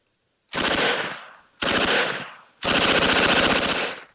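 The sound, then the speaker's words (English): A Thompson submachine gun fires three loud bursts of rapid automatic fire in quick succession. The last burst runs longest, and no voices are heard. “Do the Thompson submachine gun if you've got it.”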